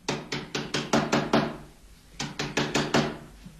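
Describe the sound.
Knuckles knocking on a house door: a quick, even run of seven firm raps, a short pause, then five more, loud and sharp against a quiet background.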